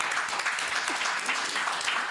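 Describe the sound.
Audience applause greeting a young trap artist as he is introduced: loud, dense clapping that holds evenly from start to finish.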